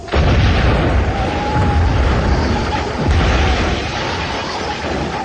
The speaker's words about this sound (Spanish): La sorda explosión confirma los peores miedos.